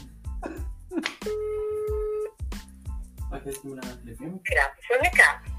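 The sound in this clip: A telephone tone sounds as a call is being dialed: a steady, two-pitched electronic tone holds for about a second while people talk before and after it.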